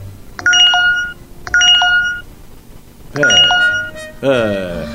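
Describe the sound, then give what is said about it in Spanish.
Mobile phone notification tones from many messages arriving at once after the phone reconnects to Wi-Fi: four bright, chiming alerts in quick succession, the later two fuller and sweeping. “¡Qué manera de sonarle el teléfono, che! Están entrando todos los mensajes juntos porque no tengo saldo y tampoco tenía wifi.”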